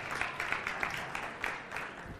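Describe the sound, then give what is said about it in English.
Soft applause from a church audience during a service, a faint, steady patter of many hands with small swells, lasting the whole moment. “Yes, give him a round of applause.”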